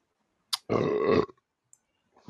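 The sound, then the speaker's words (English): A single loud burp lasting about half a second, preceded by a short puff of breath and followed by near silence. “You get the burp.”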